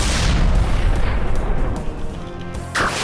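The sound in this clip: A gun goes off with a loud, deep boom whose rumbling, noisy tail fades gradually over a few seconds, with a fresh rise of noise near the end.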